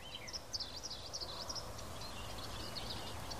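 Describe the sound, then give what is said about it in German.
Birdsong outdoors on a windy day: faint, high chirps and short trilling calls over a constant low rumble of wind. “Also es ist ein bisschen windig, aber ich hoffe, man kann trotzdem den Vogelgeräuschen lauschen.”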